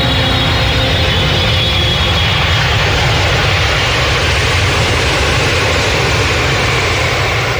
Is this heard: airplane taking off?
yes